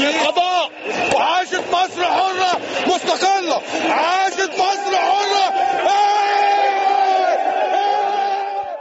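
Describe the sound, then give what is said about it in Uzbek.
A large crowd in Cairo's Tahrir Square cheers the announcement of Morsi's removal from power, with loud sustained roaring, shouts, and whoops from many voices. “Hokimiyat almashgani to'g'risidagi e'lon Qohiraning Tahrir maydonida olqishlar bilan kutib olindi.”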